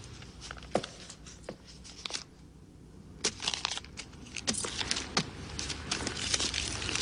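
Fax papers crumple and crinkle as someone sits down on them, giving many irregular crackles and rustles that continue throughout, with no talking.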